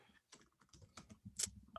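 Faint typing on a computer keyboard: a run of irregular, light key clicks with one sharper tap near the end.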